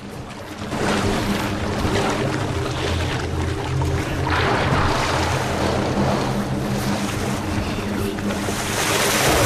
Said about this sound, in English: One raises its head so it can chew more easily, while nearby another rolls and thrashes about in the water.